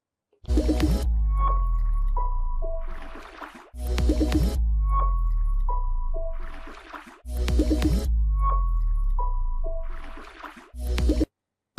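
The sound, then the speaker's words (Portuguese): Short video intro jingle used as a cut, playing about three near-identical passes back to back, each with a deep swooping bass, bright chiming tones and wet plopping accents, loud and alone. “fiz ali a vinhetinha, né, só para cortar para poder conversar com vocês agora”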